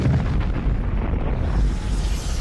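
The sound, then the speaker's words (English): A deep, rumbling explosion as the planet Krypton blows up, a loud roaring boom heavy in the low end that sustains for over two seconds without a break. “as his little spaceship goes off into the galaxy, we see Krypton explode.”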